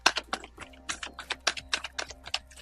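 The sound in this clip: Tarot reading cards being handled, giving many light, crisp taps and clicks in a quick, uneven rhythm, with no voices.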